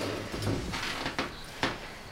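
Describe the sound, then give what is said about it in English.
A chair is pulled up across the floor, producing quiet, soft scraping slides and two light knocks, with no talk. “pulls a chair up beside her”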